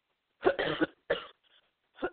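A few coughs and throat clearings from one person: a raspy double burst, then a shorter hack, a faint catch and a final throat clear. Each is separated by brief silences, and there is no speech.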